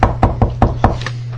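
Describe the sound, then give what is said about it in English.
Knocking on a door: five quick, evenly spaced, solid knocks in a brisk rhythm, then fainter taps trailing off, all over a steady low hum. “I just walk into the door, and knock on it. Knock on the door.”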